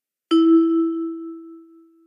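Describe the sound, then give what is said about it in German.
A single electronic chime rings out as the cue to repeat words in a German language lesson. It is one clear, steady tone that slowly fades over about two seconds, with no voices. “Wiederholen Sie nach dem Signal.”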